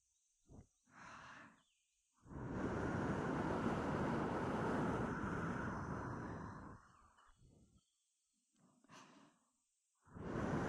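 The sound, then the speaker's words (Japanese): Breath is blown into the listener's ear: a few short puffs, then a long, steady whooshing blow of about five seconds, then softer breaths and another strong blow at the end. “お主の耳にまた息をかけてやるのじゃ。目をつむって突風に注意するのじゃぞ。”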